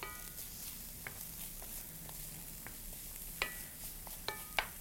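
Food sizzles steadily in a pan at a low, even level, with a few brief clinks or scrapes of stirring near the end and no talk.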